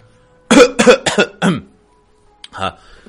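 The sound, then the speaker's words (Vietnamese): A light cough: a quick run of a few short, throaty coughs, then one more after a brief pause, alone with no talk. “Ngọc Đế ho nhẹ một tiếng, cố gắng duy trì giọng điệu bình tĩnh”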